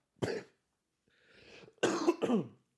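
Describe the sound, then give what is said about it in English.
A person coughs a few times in short, harsh bursts, with a quieter breathy sound between them, faint and alone with no talking. “That was me coughing.”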